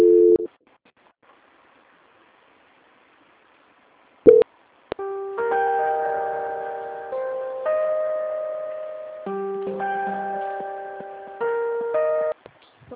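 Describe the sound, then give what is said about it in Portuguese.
A telephone line goes on hold during a call transfer. A brief electronic beep is followed by near-silence and a click, then a looping electronic melody of clean, sustained notes plays. “vou pedir o senhor para guardar em linha, a ligação vai ficar muda, mas eu vou transferir a ligação para o setor de qualidade”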